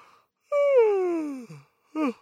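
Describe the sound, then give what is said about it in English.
A tired person gives a voiced yawn, a long drawn-out tone that slides steadily downward in pitch and fades off, followed after a short pause by one brief vocal sound. “I freaking yawn. I'm about to yawn right now.”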